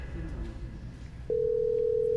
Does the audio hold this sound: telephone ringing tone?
yes